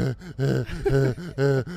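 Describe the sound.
A man's voice imitates shallow, stressed breathing as a rapid, uneven run of short, voiced gasps and strained huffs, each breath clipped and tense.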